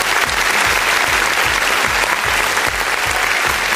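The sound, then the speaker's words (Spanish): Welcoming applause from a crowd: dense, steady clapping that stays loud and even throughout, with no voices. “para ellos, de inmediato, vaya el primer aplauso de bienvenida.”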